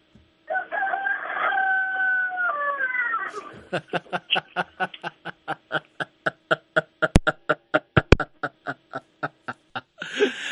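A rooster crows during a telephone call: one long harmonic crow whose pitch steps down near its end, then a fast, steady train of many short, sharp pulses continuing to the end.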